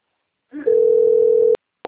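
An outgoing phone call rings on the line: a single steady, mid-pitched ringback tone holds for about a second, then cuts off, followed by a short click.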